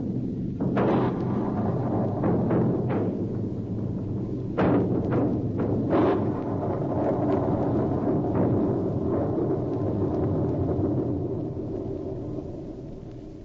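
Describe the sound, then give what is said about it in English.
A hand grenade explodes as a radio drama sound effect, a heavy, booming rumble that runs throughout, punctuated by several sharp, loud bursts of blast and debris. “You see this hand grenade? Unless you put your gun down, I release the trigger. Drop it or I'll shoot. He's released the trigger. Run, it will explode.”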